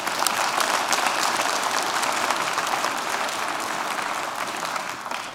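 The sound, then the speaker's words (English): Church audience applauding to welcome a visiting bishop to the morning service: a dense wash of clapping hands, loud and steady for about five seconds, thinning and fading at the close. “Let's all put our hands together. Let's welcome Bishop Ed Gunger here this morning.”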